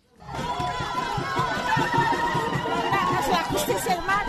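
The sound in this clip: A crowd celebrates outside a courthouse in Lima, Peru, after a court verdict: a dense, loud mass of voices chattering and cheering, rising quickly at the start and staying steady throughout.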